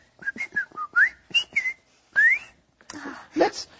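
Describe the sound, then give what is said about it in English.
A person whistles a short run of quick, clear notes that hop up and down in pitch, then holds one longer rising note. The phrase ends in a few breathier, softer sounds. “I can whistle. You know how to whistle.”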